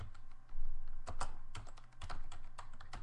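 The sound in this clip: Typing on a computer keyboard, a rapid irregular run of many crisp keystrokes with a few louder clustered taps, steady throughout with no voices.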